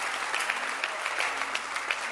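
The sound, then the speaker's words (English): An audience at a gathering applauds: dense, steady hand clapping from many people that stays even in loudness throughout, with no talking on top. “clap your hands for the man of God of the”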